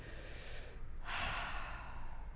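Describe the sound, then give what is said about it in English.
Deep breathing into the belly: a single soft, drawn-out airy breath that swells in the second half, faint and alone with no talk. “So breathe. Breathe and stretch that diaphragm down. Breathe down into your belly.”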